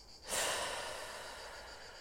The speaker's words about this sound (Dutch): Je mag even diep inademen en weer uit.